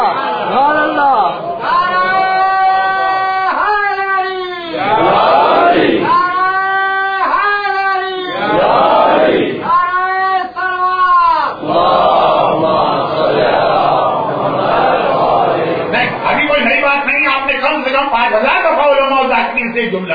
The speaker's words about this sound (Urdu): جملہ سنا تو آپ کی محبت ہے کہ پھر بھی آپ نے نعرے لگاتی ہے